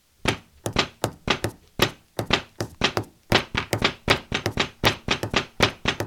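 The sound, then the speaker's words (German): Live hand drumming plays alternating polyrhythms, three against four and two against three: many sharp, dry hand strikes in shifting clusters, loud and alone with no voices. “Ihr seid beim Nerd Domino und hier wird live für euch getrommelt”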